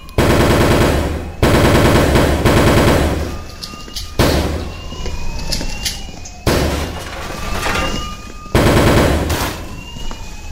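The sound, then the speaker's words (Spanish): Loud automatic gunfire from a shooting in a school library, aimed at wooden tables, fired in several long rapid bursts separated by short breaks. “Ok, voy a empezar a disparar de todos modos.”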